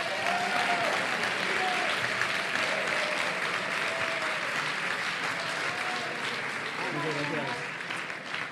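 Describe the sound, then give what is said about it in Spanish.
An audience at an awards ceremony applauds the nominees with sustained, even clapping, while voices can be heard over it. The applause thins slightly toward the end. “Un aplauso. Un aplauso a los nominados.”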